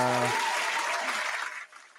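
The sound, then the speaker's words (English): Applause for an award winner: a steady wash of clapping that thins and fades toward the end, with a voice trailing off at the very start. “Applause to Mitch Purse.”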